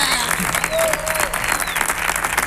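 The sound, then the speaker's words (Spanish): Audience applause for a singer: steady, dense clapping holds at an even, moderate level from start to finish. “Recibí este aplauso que está recibiendo maravillosamente.”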